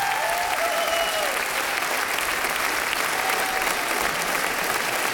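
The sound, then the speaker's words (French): Sustained, dense applause from a radio studio audience on its feet in a standing ovation after a concert with about 40 instrumentalists, loud and steady throughout with no pauses. “Et le public ici, au studio 104 de la Maison de la Radio et de la Musique, s'est levé. Une ovation pour Stéphane Hichère.”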